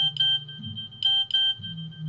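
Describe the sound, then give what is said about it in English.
A small electronic beep signalling an answer: a steady high-pitched tone with a few brief brighter blips, faint and thin over a low murmuring hum. “That little beep means that I have an answer.”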